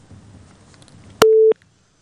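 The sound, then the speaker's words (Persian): Telephone busy tone after a call disconnects: faint line hiss, then a sharp click and a single short, loud, steady beep, after which the line falls silent. “خب تماس اینا قطع شد”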